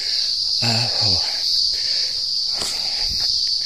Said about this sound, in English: You can hear the cicadas in the background.